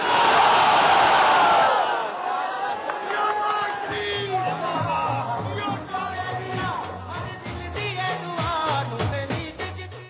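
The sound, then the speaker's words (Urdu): A crowd chants slogans at a rally in Jaranwala, Pakistan. A loud collective shout opens, then many voices settle into repeated rhythmic chant phrases that continue steadily to the end. “میرے ساتھ آپ نعرہ لگائیے، جڑاوالہ پورے شہر میں آواز گونجنی چاہیے، پاکستان”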